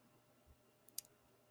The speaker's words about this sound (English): Wait, I guess I have to click on this.